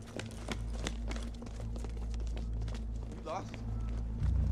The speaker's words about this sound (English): They jog down a street onto a bridge.